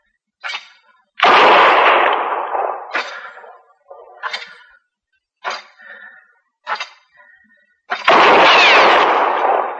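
Gunshots ring out in a Western-style showdown as a woman fires at a marshal: several sharp, loud cracks in an irregular series, a couple of them booming with long, rolling tails, with no talk over them.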